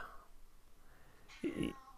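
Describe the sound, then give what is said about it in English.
A cat gives one short, sharp meow, fairly loud against an otherwise quiet background. “my cat just yelled at me”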